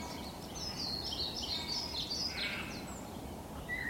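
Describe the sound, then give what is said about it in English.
A blackbird singing in a glade on Sugar Loaf mountain, fluting, warbling phrases rising and falling over a steady low background noise, fairly faint and with no voices. “Backdrop of a blackbird just providing a kind of, yeah, I'm here doing my thing. Yeah, I'm only the most beautiful bird song in Britain”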